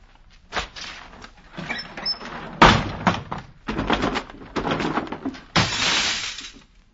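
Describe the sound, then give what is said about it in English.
Heavy drapes are ripped down from a window in a series of loud, noisy tearing and crashing bursts, some short and some drawn out, with brief quiet gaps between them. “I have come back to let the sunlight in. Oh, Pip. I shall open the drapes, Miss Havisham. I shall rip down the drape!”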